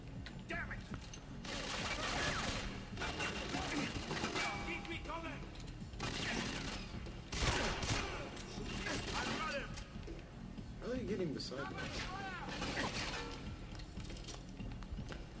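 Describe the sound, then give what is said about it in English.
Gunfire in a shooter video game comes in repeated bursts of sharp shots and crashes, with loud clusters separated by short lulls, while players talk over the action. “You're getting shot from the right, dude.”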